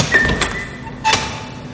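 Door opening into a pasta production hall, two brief clunks about half a second apart over a faint steady hum.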